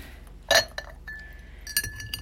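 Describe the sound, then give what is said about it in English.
Spoon clinking against a cup while stirring green tea with sugar: a few bright, short glassy clinks, one loud and the others softer, with a brief thin ringing tone between them. “Let me stir my tea”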